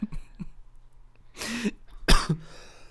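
Two harsh, fairly loud coughs from a person, the second burst sharper and stronger, separated by a short quiet gap, with a few faint small sounds before them.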